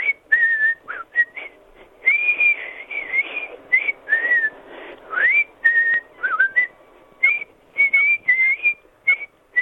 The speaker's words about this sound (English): blowing us a tune from his old gay lips. What's the tune?